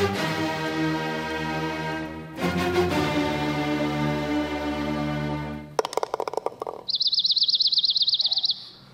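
A bird chirps in a loud, high, rapidly warbling trill. It follows a long sustained harmonic drone and a burst of fast clattering clicks.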